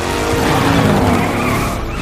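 A truck speeds away with skidding, squealing tyres. A loud, continuous rough roar with a tonal whine runs for about two seconds without a break.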